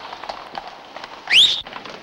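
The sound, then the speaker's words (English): Hooves of a horse-drawn carriage clip-clop faintly and irregularly as it pulls up. Midway through, a brief, loud, high squeal rises over them, then the soft clopping continues. “A horse-drawn carriage pulls up and they climb in.”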